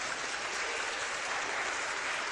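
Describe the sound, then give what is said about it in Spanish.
Audience applause greets a delegation from Quito at a gathering. The continuous, even clapping is fairly soft and has no pauses or voices over it. “Quito, un aplauso, ¿verdad?”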